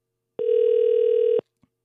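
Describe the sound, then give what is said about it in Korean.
An outgoing telephone call goes unanswered, with a single steady mid-pitched ringback buzz lasting about a second, then silence and a faint click. “0591번님 전화 갑니다.”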